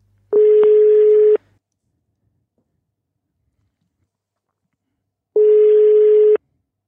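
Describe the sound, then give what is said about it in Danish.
Ringing tone of an outgoing telephone call to a doctor: two steady mid-pitched tones, each about a second long, separated by roughly four seconds of silence. “ringede jeg lige til en, der kunne give mig den lægelige forklaring, de helt faktuelle facts. Jeg lavede et opkald til Bente Klarlund Pedersen.”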